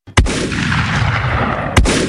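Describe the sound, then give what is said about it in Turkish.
Gunshots from a pump-action shotgun and a pistol are fired into the air during a wedding celebration in Ankara's Çankaya district. Two loud, sharp reports about a second and a half apart are each followed by a long, rumbling roar. “Düğün kutlamasını bahane eden altı şehir eşkıyası pompalı tüfek ve tabancayla havaya mermi yağdırdı.”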